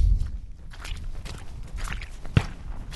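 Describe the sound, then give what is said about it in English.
Footsteps walk off the beaten track on a public right of way strewn with gun cartridges. Soft, irregular treads and rustles stay fairly quiet, with one sharper, heavier step standing out near the end. “Walking further down, just off the beaten track here”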